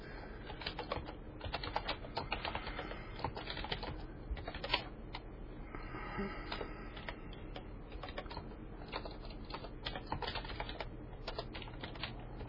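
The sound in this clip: Fingers type quickly and steadily on a computer keyboard, producing many light, crisp key clicks in a dense, uneven rhythm that continues throughout with no talking.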